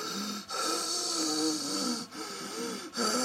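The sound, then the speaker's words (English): Someone breathes with a raspy, whistling wheeze. A few long, noisy breaths carry a wavering tone and are separated by brief pauses. “I'm wheezing quite a lot. Wheezing. And that means you're having problems breathing. And it makes a sound when you breathe.”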